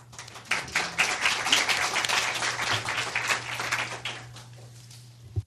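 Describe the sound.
An audience claps to welcome a speaker to the stage. The clapping rises quickly, holds as a lively patter of many hands, then tails off abruptly near the end over a faint low hum.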